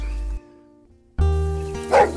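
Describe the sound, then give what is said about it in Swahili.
A dog barking, two loud, drawn-out barks separated by a short pause, the second ending in a higher yelp. “Oh, Bosco! We, kazi kubwekea marafiki zangu tu mchana na usiku umenyamaza. Nitakuuza wewe, nitafute mbwa mwingine.”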